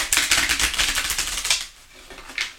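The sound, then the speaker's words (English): Playing cards being shuffled: a rapid, dense run of crisp clicking flutters that stops briefly near the end, followed by one last short burst. “May I have three cards, please? I have three cards, please. I'm shuffling on the side.”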